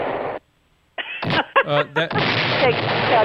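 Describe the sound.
An explosion sound effect: a noisy burst cuts off into a short silence, followed by several sharp blasting pops and then a loud, sustained rumbling roar.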